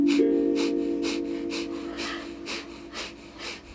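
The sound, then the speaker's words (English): Rapid nasal breathing in the breath of fire yoga technique: many quick, evenly spaced exhales pulse through the nose in a steady rhythm over a sustained low drone. “a breathing technique called breath of fire. This is a fundamental breath of Kundalini Yoga. It's a rapid inhale and exhale through the nose. It sounds like this.”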